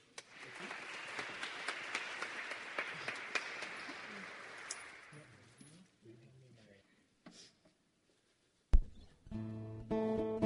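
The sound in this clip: Audience applause at a House of Mercy show welcoming a band to the stage: dense clapping for about five seconds that thins and fades out, followed by a short pause before an instrument starts playing at the end.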